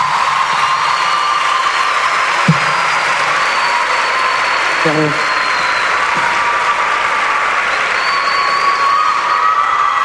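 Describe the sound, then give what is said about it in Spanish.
Sustained audience applause with some cheering after a live performance, a loud, unbroken roar of clapping lasting the full ten seconds. “Gracias, fuerte el aplauso para Nahuel.”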